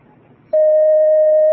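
A telephone line tone sounds as a caller connects to a call-in line: a single steady, mid-pitched tone lasting about a second, loud and unbroken, following a stretch of faint background hiss.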